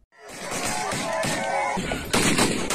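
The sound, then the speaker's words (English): Gunfire from gunmen in an armed ambush that killed 60 people during a tribal conflict in Wapenamanda, Enga province, Papua New Guinea, heard as a loud, continuous burst of dense, crackling shots that grows harsher toward the end. “That's the sound of gunmen who massacred 60 people in an armed ambush.”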